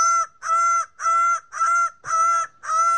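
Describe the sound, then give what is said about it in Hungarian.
A bird of paradise calls six times in an even, repeating series, each call a loud, harsh, harmonic burst of similar length separated by short gaps. “A paradicsom madarat akarta bemutatni, csak hogy ehhez a madárnak is volt egy-két szava.”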